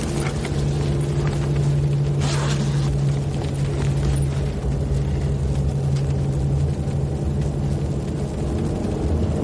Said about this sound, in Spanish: El autobús circula por una larga carretera de doble dirección.